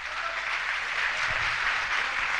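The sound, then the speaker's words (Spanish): Church audience applauding in praise of Christ, a dense, continuous wash of clapping that stays level and fairly loud from start to finish. “El aplauso para Cristo.”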